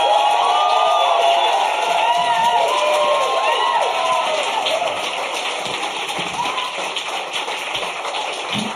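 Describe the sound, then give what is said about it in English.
Comedy audience cheering, whooping and clapping as a well-known comedian is welcomed on stage, a loud, dense roar that holds steady and eases slightly toward the end. “It gives me enormous pride and pleasure to ask you to welcome to the stage an absolute heroine of comedy. Would you please give it up for Joe Brand?”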